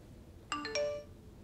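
Phone message notification: a quiet, bright three-note chime in quick succession, ringing briefly before fading into near silence.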